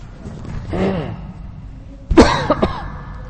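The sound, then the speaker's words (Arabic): A person coughs twice, a softer cough first and then a sharper, louder burst with a couple of quick after-pulses. “انا اخاف اكح عفوا”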